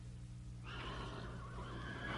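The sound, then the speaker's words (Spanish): A horse neighing wildly at night, one long shrill whinny that sets in at about half a second and carries on to the end, faint over a low steady hum. “Escuchó el salvaje y enloquecido relinchar de un caballo.”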